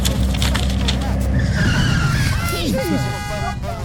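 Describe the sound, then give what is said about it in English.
A car pulling over with its tyres skidding. A dense rumble of engine and road noise is followed by sharp, wavering tyre squeals toward the end. “There's 20 quid for you if you pull over right now.”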